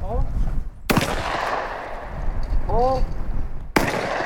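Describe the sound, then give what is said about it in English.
Two shotgun blasts ring out as students on a clay target team fire across an open field at a fish and game club range. The sharp, loud reports come a few seconds apart, with people talking between them. “Four students stand in a line facing a big open field. They're each wearing a bright orange vest and holding a long shotgun.”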